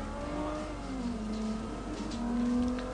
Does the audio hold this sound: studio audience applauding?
no